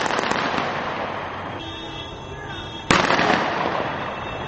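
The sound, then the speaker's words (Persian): Celebratory gunfire shot into the air at a supporters' rally: one sharp, loud bang cuts through a dense, roaring crowd noise that continues before and after it. “و به هوا تیر خالی کردند”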